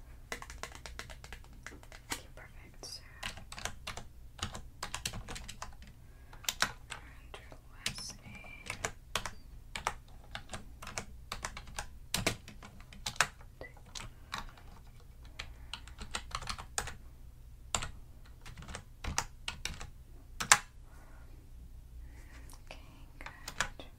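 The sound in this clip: Typing on a computer keyboard at a hotel check-in desk while guest details are entered: many quick, irregular clicking taps, soft and faint, coming in uneven bursts throughout.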